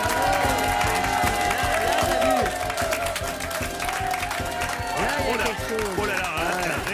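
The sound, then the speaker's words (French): A man vocally imitates an audience applauding and cheering. He keeps up a continuous breathy, hissing clapping noise mixed with voiced whoops and cries for several seconds. “Vous faites bien le public, Elie, mais le public, en vrai, c'est mieux.”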